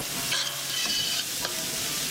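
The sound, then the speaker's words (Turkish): Onion and garlic sautéing in butter in a pot, a continuous dense sizzle with a few soft stirring scrapes. No talk. “Doğradıktan sonra soğanı, sarımsağı tenceremize alıyoruz. Tereyağı ile beraber kavuruyoruz.”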